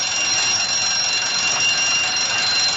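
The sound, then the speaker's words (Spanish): An alarm sounds with a continuous, steady, high-pitched ringing tone that stays at the same level throughout. “Pero de repente sonó una llamada de alarma.”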